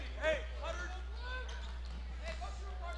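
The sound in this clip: Basketball dribbled during a live game, bouncing against the court with a few thuds under steady talk.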